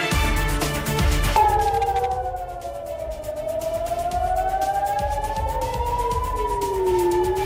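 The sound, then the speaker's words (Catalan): Air raid sirens wail across Jerusalem at dawn after a warning of a missile attack from Yemen, with several long, sustained tones that slowly rise and fall and cross one another, steady and loud throughout. “I aquest és el so de la matinada a Jerusalem. És el so que ha sonat aquestes últimes hores a la ciutat. Les sirenes s'han sonat i s'han activat després que l'exèrcit hebreu assegurés haver detectat un nou atac amb míssils des del Iemen”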